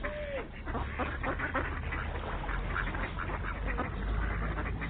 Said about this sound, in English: that's a lot of ducks there. That's almost too many ducks.